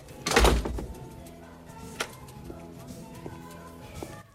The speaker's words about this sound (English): He smiles and shuts the door.